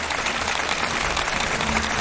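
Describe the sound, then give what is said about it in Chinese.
Audience applause for a percussion teacher after a demonstration, a thick, steady wash of clapping at an even level for two seconds. “我们再次把掌声献给我们的蒲老师，谢谢您。”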